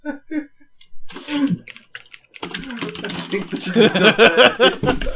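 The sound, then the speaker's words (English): Fingers type on a computer keyboard in quick bursts of clattering key clicks, starting sparse and growing into a rapid, busy patter. “See? I fucking typed that just fine. There's no delay.”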